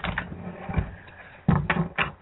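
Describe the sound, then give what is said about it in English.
Playing cards being shuffled as a deck, a few short, crisp riffling bursts of rattling clicks, with a louder flurry in the final second. “I'm going to shuffle the cards for you too.”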